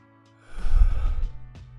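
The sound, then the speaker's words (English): A deep breath: a loud, breathy rush of air lasting under a second, then a fainter short puff, with no voices. “Now, take a deep breath and let it out.”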